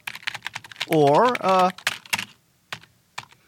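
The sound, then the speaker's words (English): Typing on a computer keyboard, with quick, uneven bursts of keystrokes clattering along and a brief voiced sound in the middle. “Next time you're at your computer keyboard, stop for a moment and notice the way you type. Not the words, but the pattern.”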